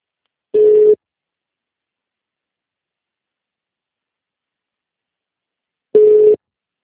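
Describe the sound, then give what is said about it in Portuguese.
Telephone line tone after a dropped call: two identical short, steady mid-pitched beeps about five seconds apart, with silence in between and no voices. “Eu acho que caiu e tem outra na linha, quer ver? Vou desligar.”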